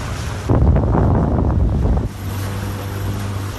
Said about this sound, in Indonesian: Kita berada di Laut Sembilangan bersama guru-guru.